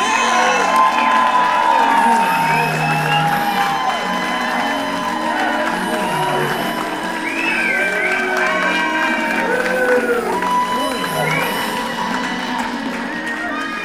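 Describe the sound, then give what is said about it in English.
An audience claps and cheers as a comedian is introduced at a stand-up show: loud, sustained crowd noise with many whoops and high shouts over continuous applause. “they're clapping hard for my intro”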